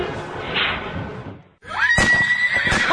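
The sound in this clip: A horse at riding stables, where horses are bought, sold, traded and ridden by the hour, gives a loud, high whinny. It follows a burst of rushing noise and a short gap, and a few dull thuds sound beneath it.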